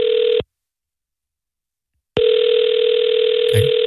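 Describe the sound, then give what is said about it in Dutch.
Ringback tone of an outgoing telephone call: a steady, buzzing electronic ring cuts off after a brief burst, then after a pause of under two seconds a second long tone starts and runs on to the end. “Dus we gaan ze gewoon nog een keer bellen.”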